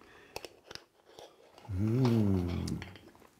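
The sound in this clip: Chewing and crunching on za'atar spice mix with roasted sesame, herbs and sumac: a few crisp bites early on, then a low, drawn-out appreciative hum that holds for about a second.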